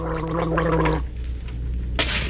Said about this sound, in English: But now there's Wham Wash, minty and antiseptic gargle that alleviates sock mouth first thing in the morning and all day.